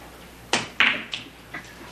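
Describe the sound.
Billiard balls clack in a six-ten combination shot to the corner pocket during a pool game, a few short, sharp knocks spaced over about a second.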